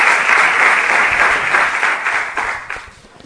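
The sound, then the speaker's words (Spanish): Audience applause after a call to honour a son at a recognition ceremony, a dense steady roll of many hands clapping, loud and sustained, then thinning and fading toward the end. “Su hijo Juan, vamos a darle un aplauso también a él”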